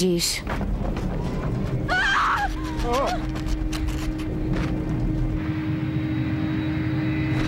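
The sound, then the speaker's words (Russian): An airplane shaking in turbulence gives a steady, loud engine drone throughout, under people's voices that include a brief, wavering cry. “Самолет трясется.”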